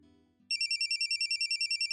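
Electronic telephone ringtone for an incoming call: a loud, high-pitched, rapidly pulsing tone that starts abruptly after a brief low murmur and repeats in many even beats.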